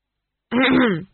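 A single short throat clearing, one brief, voiced, gravelly ahem lasting about half a second in otherwise quiet surroundings.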